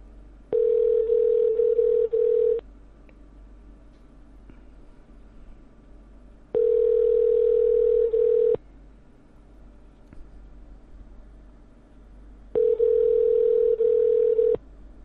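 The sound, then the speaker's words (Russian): A telephone ringback tone repeats three times as a call goes unanswered, each a steady, even-pitched tone about two seconds long, separated by quiet gaps of roughly four seconds over a faint low hum. “Не берет? Не, гудки идут.”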